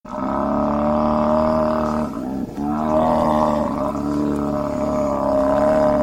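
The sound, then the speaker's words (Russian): Bulls roaring: two long, deep, sustained bellowing roars, loud and droning, separated by a brief break in the middle. “Увидев их, быки заревели.”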